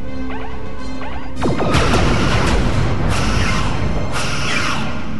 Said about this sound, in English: fire phasers on full with a simultaneous spread of torpedoes